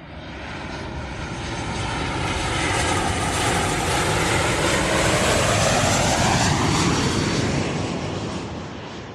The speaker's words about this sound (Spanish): Ahora seguramente nos vamos a seguir en avión.